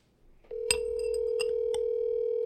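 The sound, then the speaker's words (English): A telephone ringing tone on an outgoing call: a steady, mid-pitched electronic tone starts after half a second and holds unbroken. Three sharp clicks land over it. “You just lucked yourself into a phone call on TikTok Live.”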